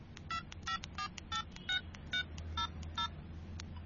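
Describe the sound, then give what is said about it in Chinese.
Telephone keypad dialing to call an elderly person: a quick, uneven run of many short touch-tone beeps, faint, over a low steady hum. “你帮我打电话俾佢”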